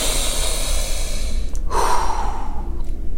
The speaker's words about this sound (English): Take a huge deep breath with me. Ready? On three.